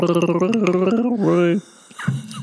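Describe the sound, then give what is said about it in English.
A person gargling a mouthful of coffee, a voiced, bubbling gurgle with a rapid wavering pulse for about a second and a half, then a short pause and a brief further gurgle. “I shouldn't gargle coffee. That's probably... It might go down the wrong pipe and then you just spew it everywhere.”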